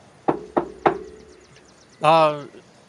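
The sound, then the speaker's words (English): Three sharp, evenly spaced knocks on a door, crisp and loud, followed about a second later by a short voiced sound. “I can knock on the door and see if they could use a hand cooking.”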